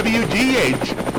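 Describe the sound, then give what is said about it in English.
A WWGH news helicopter's rotor chops loudly and steadily overhead, with a rapid pulsing beat throughout the short burst. “And watch out for the chopper.”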